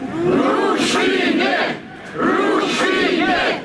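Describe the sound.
A large crowd of protesters at an anti-government demonstration in Moldova shouts loudly in unison, two long chanted bursts separated by a brief, quieter lull.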